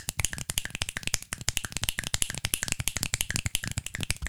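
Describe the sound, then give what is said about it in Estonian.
Rolling finger snaps made with four fingers, forming a rapid, rattling run of many sharp clicks in quick, slightly uneven succession that continues throughout without talk. “nelja sõrmega nipsu löömine kokku, nii et saaks teha vur-, vur-, vuristavat nipsutamist.”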